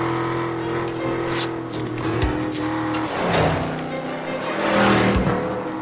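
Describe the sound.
A car engine roars as one car follows another in a chase, its revving swelling and easing with a few sharp tire squeals cutting through, loud throughout and with no talk.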